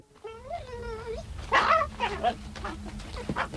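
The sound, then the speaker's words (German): A dachshund whines in a wavering, high tone, then gives a few short, sharp yips and barks. The sounds are fairly faint and come alone. “Tristan, wirst du brav sein? Ach, ja, ich mag nämlich Dackel.”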